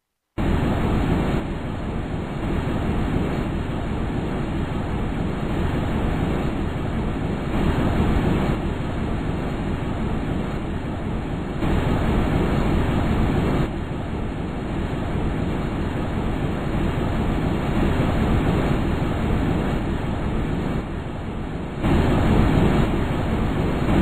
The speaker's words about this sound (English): They give a realistic recording of what a traveler on the Huygens probe would have heard during the ride down through Titan's atmosphere.